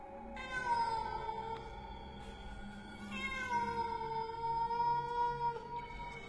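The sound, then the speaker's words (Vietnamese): A black cat yowls eerily after leaping down from a tree onto a candlelit ritual altar. It gives two long, drawn-out wails with a wavering pitch, loud and alone with no talking. “Một con mèo đen xì xì xuất hiện, đôi mắt xanh lè lè. Ở trên cành cây hòe, nó nhảy bổ xuống bàn lễ, kêu lên những tiếng ghê rợn.”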